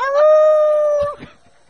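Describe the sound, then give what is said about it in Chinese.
A voice imitates a pack of dogs with one long, loud howling yelp held at a steady pitch, which breaks off and trails into a brief, breathy tail. “哇哇哇哇哇不是一只、啊、一堆、啊、 忽然之间有一群的狗就出来就好像他刚才这样叫哈 翻译员要学一下我”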